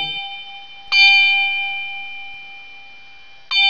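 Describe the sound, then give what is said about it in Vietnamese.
A Buddhist temple bell is struck during a funeral rite for the dead, giving two clear metallic strikes. Each has a bright attack and a long, steady, humming ring, and the fading ring of an earlier strike is heard at the start. “đưa tay gõ 3 tiếng chuông.”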